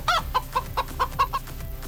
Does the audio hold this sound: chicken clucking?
yes